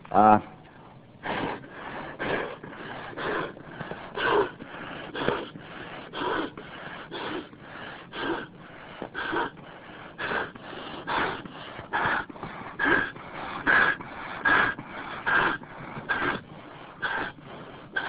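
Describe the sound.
Breathy puffs of air as a man blows up an inflatable bladder by mouth, the bladder's inlet about as wide as a throat; many short, evenly spaced bursts follow one another steadily at a moderate level.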